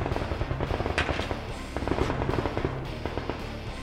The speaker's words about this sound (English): The truck is firing.